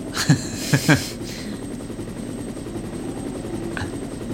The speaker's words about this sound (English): Ah, just looking up at the helicopter flying over.